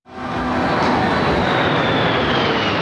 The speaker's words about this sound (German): während die Kampfflugzeuge der Air Force im Tiefflug über die National Mall in den Sonnenuntergang donnern.